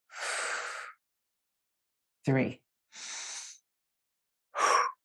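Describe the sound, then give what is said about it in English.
Slow, deep breathing from a person practising core exercises: two long, airy breath sounds, each close to a second, separated by short spoken words. Quiet pauses fall between the sounds. “So let's take three deep breaths.”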